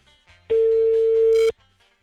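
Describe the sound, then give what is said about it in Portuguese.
Telephone ring tone on a call waiting to be answered: a single steady electronic tone about one second long, fairly loud, with faint background noise before and after. “Cinco toques pra ele. Cinco toques até ele atender.”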